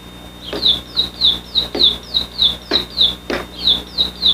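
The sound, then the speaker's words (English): Sparrow chirping through an open window: a steady run of many short, bright chirps, each sliding downward in pitch, evenly spaced and fairly loud, with a faint high steady tone beneath. “Sparrow. I opened the windows a little bit.”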